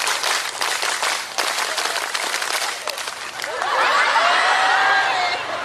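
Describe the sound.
A group doing scout-style rhythmic clapping, many hands striking in quick, patterned bursts for several seconds before giving way to loud crowd chatter.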